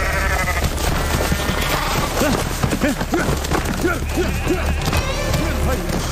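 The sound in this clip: Sheep bleat at a Kazakh herders' winter pasture as a boy tries to catch one during the yearly winter slaughter. Many wavering, quavering cries repeat over a constant noisy background.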